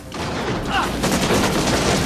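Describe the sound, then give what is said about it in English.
Gunfire bursts out in a film action scene in which a man rolls and fires a pistol. A sharp report opens it, followed by loud, dense volleys that continue to the end. “Beckett jumps down from the barn, rolls and shoots a man in the chest with his pistol.”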